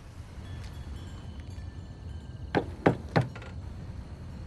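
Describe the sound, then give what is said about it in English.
Knocking on a glass front door engraved with a flower, at night: three sharp raps in quick succession over a low, steady background hiss. “When he knocks, the door opens.”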